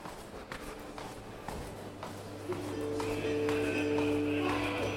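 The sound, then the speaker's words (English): Footsteps walking downstairs in a museum: faint, irregular steps over a steady low hum. “So I think there's something you might be interested in downstairs. I'll lead on. Lead on. Go down.”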